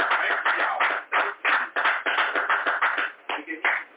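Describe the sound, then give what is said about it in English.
A church audience claps together in a steady rhythmic beat. Many sharp hand claps follow one another at a regular pace, with brief gaps between them. “That's a big time hand clap.”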